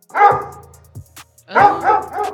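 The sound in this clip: A dog barks a few times in short, sharp, mid-pitched bursts, with a brief gap between an opening bark and a closer run of two or three more.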